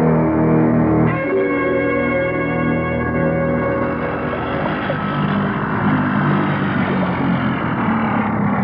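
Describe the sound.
Motorboat engine running on open water, a strong droning hum with steady tonal layers that gradually gives way to a broad, even rushing wash at a similar level.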